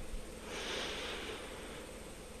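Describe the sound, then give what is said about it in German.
A deep breath drawn in through the nose during a guided breathing exercise: one long, steady, airy rush of inhaled air that holds for about two seconds with no talking. “Und dann nehmen wir nochmal einen tiefen Atemzug durch die Nase rein.”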